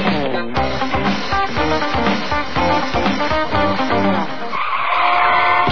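A car skids with a loud, continuous screech of tyres that runs for about five seconds, its tone shifting and thinning toward the end, with no clear crash heard.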